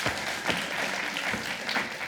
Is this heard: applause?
yes